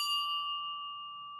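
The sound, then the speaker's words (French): A small church bell sounds one clear ding that rings on as a bright, sustained tone and slowly fades, faint and alone. “De la petite cloche dans l'église.”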